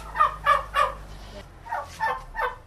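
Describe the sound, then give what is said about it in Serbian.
Turkeys gobble on a household farm in Ugrinovci, Serbia, that also keeps ducks and geese: two bursts of three rapid, warbling gobbles each, separated by a short pause, over a low steady hum. “Gde su te ćurke? Tamo pozadi.”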